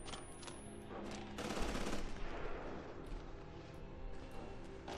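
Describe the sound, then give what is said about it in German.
Video game gunfire as soldiers open fire: dense, rapid bursts of shots with a heavier barrage near the middle, staying loud throughout with no pause. “Oh, hier wird mies geschossen.”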